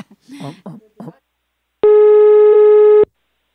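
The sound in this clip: A telephone busy tone after the other party hung up: brief talk, then a single steady, harmonically rich beep about a second long that stops sharply.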